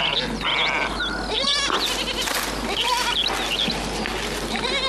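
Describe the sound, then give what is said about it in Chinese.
Sheep bleating over and over, with many overlapping wavering cries at different pitches against a loud, constant background noise. “俺打小就喜欢羊，你看，多温顺，多善良啊。”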